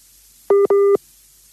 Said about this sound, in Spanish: Ahí le está entrando una llamada.